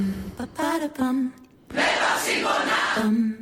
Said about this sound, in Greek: Και το πολύ μεγάλο κοινό τους που ακούτε εδώ.